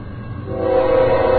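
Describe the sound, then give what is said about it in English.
BNSF locomotive horn on a slow-moving train that is picking up speed: a loud, sustained blast swells in over low rumbling and then holds steady and strong. “This is sort of a slow-moving train. It's a slow-moving train. It's taking a while. I looked down. It was parked, but I think it's picking up speed now, and boy, is he leaning on that horn.”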